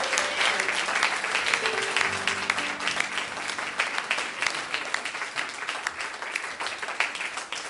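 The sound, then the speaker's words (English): A church audience claps in praise of the Lord. Many hands produce sustained, lively applause, with some tonal voices audible early on, and the clapping fades slightly toward the end. “Let's give the Lord a hand clap of praise tonight.”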